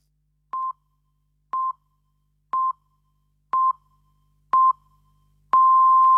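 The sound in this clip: Hourly time signal pips on Spanish radio: five short, identical high beeps spaced one second apart, then a longer sustained tone at the same pitch, heard alone.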